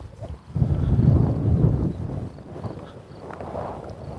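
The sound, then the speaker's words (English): Wind buffets a microphone outdoors as a strong breeze blows past, making a low, rumbling roar. It swells loudest over the first couple of seconds, then eases into a softer, uneven gusting. “I don't know if you're going to be able to hear this wind. It didn't just occur to me that there's a pretty good breeze blowing past my ears, which usually means there's quite a lot of noise on the microphone.”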